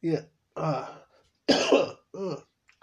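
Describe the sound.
Throat clearing and coughing from a person with a slight tickle in the throat: four short, rough, voiced bursts separated by brief pauses, with the second to last being the loudest.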